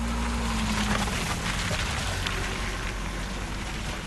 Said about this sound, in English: That is the sound of vehicles slowly navigating the potholes that have become so painfully common in Zimbabwe's urban centers.